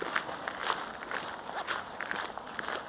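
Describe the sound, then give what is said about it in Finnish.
Footsteps of people walking through residential inner courtyards in Pikku Huopalahti: soft, regular steps at an even pace, roughly two per second, faint over steady background hiss. “nyt kävellään.”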